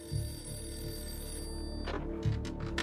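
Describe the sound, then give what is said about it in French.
A telephone rings with a steady electronic tone that holds through the whole clip at moderate volume, and a couple of brief knocks come in toward the end. “Un soir, j'ai reçu un appel de mon père.”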